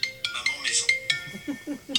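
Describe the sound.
A mobile phone ringtone signals an incoming call, a bright electronic melody with short repeating tonal notes over about two seconds.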